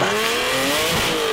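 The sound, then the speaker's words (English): The engine of a Saab Sonett racing car drones loudly and steadily, its pitch edging slightly upward, with no voices over it. “Oh, that's the sound of a Saab Sonnet.”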